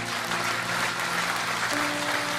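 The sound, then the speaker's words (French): An audience applauds in a church during a sermon on the resurrection, a continuous wash of many hands clapping at a steady, fairly loud level throughout, without breaks or separate claps. “Que toutes celles et tous ceux qui ont vécu des grâces de la résurrection de Jésus l'applaudissent dans ce lieu maintenant.”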